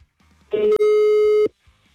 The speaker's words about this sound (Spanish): Le marcamos nuevamente.